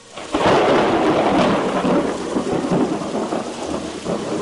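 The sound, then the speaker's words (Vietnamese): A thunderstorm with heavy rain and wind, a loud, dense wash of pouring rain with rumbling thunder rolling through it from start to finish. “Một luồng sáng cực lớn bùng lên, sóng to mưa lớn, gió quận mây vần sầm sập tuôn trào.”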